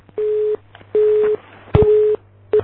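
A telephone busy tone after the other party hangs up: short, evenly spaced beeps of one steady mid-pitched tone, three full beeps and a fourth just starting, with a sharp click partway through and a low hum beneath.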